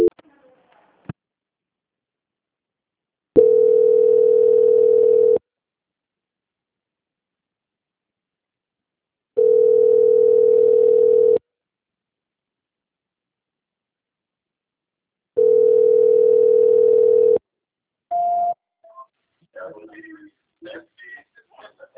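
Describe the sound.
Telephone tones play while a call is transferred: three long, steady, mid-pitched tones, each about two seconds, separated by long silences, followed by brief scattered fragments of sound.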